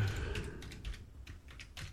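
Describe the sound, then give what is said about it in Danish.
Slow one-finger typing on a computer keyboard: a handful of faint, well-spaced key clicks in an uneven rhythm over a low background hum. “Det går ikke fort med å skrive med pekefinger, men jeg får det til slutt.”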